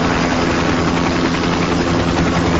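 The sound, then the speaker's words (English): A helicopter lands with a loud, dense roar of rotor and engine. The noise stays broad and steady at an even level across the whole clip, with no voices. “As Miles walks down the road, a helicopter lands.”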